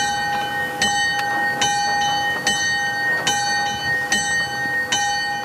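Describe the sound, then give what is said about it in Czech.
Small church death-knell bell from Oldřichov, about 29 cm across and 20 kg, with a main tone of G3, strikes many times at a steady, even pace, each ring bright and lingering into the next. “Malý oldřichovský zvon, který plní funkci umíráčku, má hlavní tón G3, průměr přibližně 29 cm a váží okolo 20 kg.”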